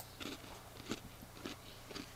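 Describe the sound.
Someone bites and chews a fragile, chocolatey pudding dessert crisp, giving four soft crunches at fairly even intervals, faint and quiet.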